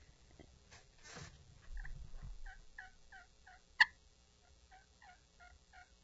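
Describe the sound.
Soft, scratchy turkey yelps played on a hand-held turkey call: a faint, evenly spaced series of short high notes, with one sharp click partway through.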